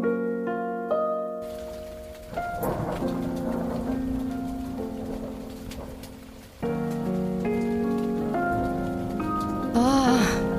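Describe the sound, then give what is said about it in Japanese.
A heavy downpour hisses steadily beneath a melodic music track, whose notes shift throughout while the rain stays constant. “ひどい目にあった。なんだってこんな大雨に。”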